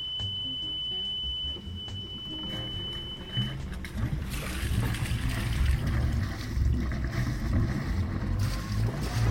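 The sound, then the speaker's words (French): A sailboat casts off its mooring lines and heads out of the harbour, with a steady low rumble and wind noise throughout. A thin steady tone runs through the first few seconds, and the noise grows broader and louder after that. “On ramène les amarres, les barbattes, et dès qu'on sort de la rade, on va hisser.”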